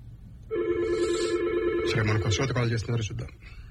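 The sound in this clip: A telephone rings for an incoming call, starting with a sustained electronic tone and moving into a run of shorter stepped tones, fairly loud throughout.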